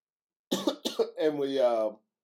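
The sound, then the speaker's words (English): Someone clears their throat because something is caught in it. A couple of short, harsh bursts are followed by a longer, rasping, voiced clearing sound. “I don't have a Rona, relax. I got some caught in my throat.”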